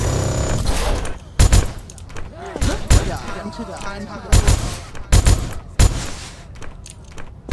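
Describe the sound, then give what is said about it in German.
Video game gunfire as a player tries to shoot through a wall: several sharp, loud shots in irregular bursts, some in quick pairs, while people talk over them. “Er schießt. Durch die Wand versucht er zu schießen und es funktioniert eben nicht.”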